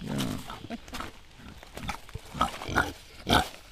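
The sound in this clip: Excited grunting from a female kunekune pig waiting at a farm gate: a run of short, rough grunts and snorts that grow louder toward the end.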